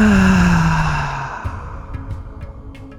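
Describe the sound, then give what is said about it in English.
A loud, voiced sighing exhale after a deep inhale in a breathing exercise, sinking slightly in pitch as it fades over about a second and a half, then trailing into faint breathy noise. “Last two deep inhales. Make your exhale the loudest one you've had yet.”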